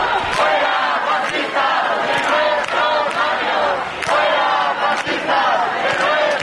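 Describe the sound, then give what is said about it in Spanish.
A crowd at a peaceful sit-in on Carrera de San Jerónimo outside the Congress in Madrid: loud, continuous massed voices chanting and shouting in rolling, rhythmic waves. “La sentada es pacífica y se sigue escuchando, así suena la sentada en la carrera de San Jerónimo.”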